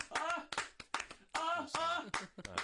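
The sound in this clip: An audience claps hands for guests on a TV show, with sparse, irregular claps mixed in among voices.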